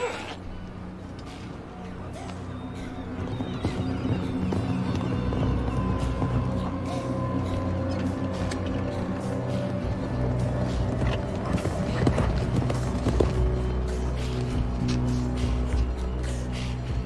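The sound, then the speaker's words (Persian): The horses of approaching riders gallop in a dense, continuous drumming of hooves over a low rumble that holds steady throughout. “چند تا سوار دارن بیان این طرف؟”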